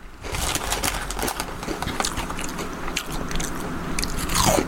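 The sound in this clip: Crunchy crinkle-cut, strip-shaped chip shop salt and vinegar crisps being bitten and chewed, giving a dense, continuous run of loud crackling crunches and scraping bites with no pauses or talk.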